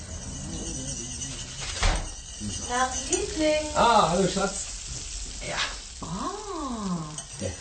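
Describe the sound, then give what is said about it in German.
Food sizzles steadily in a frying pan in a home kitchen while people talk over the hiss. “Oh, du hast ja schon gekocht.”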